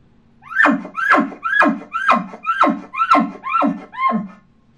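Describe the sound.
An elk cow chuckle is made by voice and magnified through a calling tube by a world elk-calling champion: eight rhythmic, fuller, resonant notes, each sliding downward in pitch, staying fairly strong throughout.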